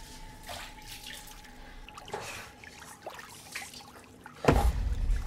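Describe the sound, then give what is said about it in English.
Water sloshing and trickling in a bath while someone's back is washed, with soft irregular splashes throughout and a louder burst of splashing near the end. “Later, Laura washes Joe's back in the bath.”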